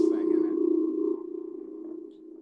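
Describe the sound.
A synthesizer oscillator holds a sustained, steady mid-low tone over a rapidly pulsing, throbbing low undercurrent, lasting about two and a half seconds and growing slightly quieter toward the end.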